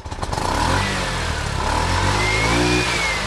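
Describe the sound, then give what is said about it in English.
A three-wheeler keke taxi engine runs during a ride in Freetown, West Africa, with a loud, steady, motorcycle-like drone that holds without pause and no voices. “The three-wheeler taxi is becoming more and more popular in West African nations”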